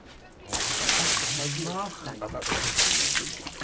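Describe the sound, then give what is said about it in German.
Water poured over a pelt being washed at a tanner's, a steady sloshing rush that starts abruptly and continues with a brief voice over it. “ich brauche einen, der Wasser zugießt.”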